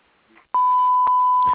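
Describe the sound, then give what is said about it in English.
Answering machine beep before a message is recorded: a single steady mid-pitched electronic tone lasting about a second, alone and clear. “if you please leave a message after the beep, we'll get back to you as soon as we can”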